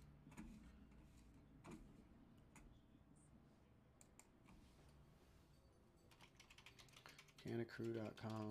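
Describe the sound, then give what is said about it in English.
Many quick clicks of typing on a computer keyboard form an uneven, fairly faint run of keystrokes, with voices briefly joining toward the end. “Here, I'll type it in for you on Twitch.”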